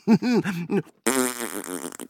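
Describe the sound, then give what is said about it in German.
Fart-like blurts from a whoopee cushion: a few short, buzzy, low bursts in quick succession, then one longer, louder sputtering rasp that trails off unevenly. “Oh je, Ole, du bist echt quasi ein wandelndes Furzkissen. Genau, der Schrecken aller Sitzmöbel. Kein Polster ist vor mir sicher.”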